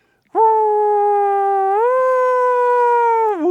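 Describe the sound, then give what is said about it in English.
An American police car siren wails as one sustained, loud, tonal note, shifting up in pitch midway, holding, then dipping briefly near the end, with a smooth, howl-like quality and no voices. “I grew up in New Jersey and in New York, where police cars sound like this.”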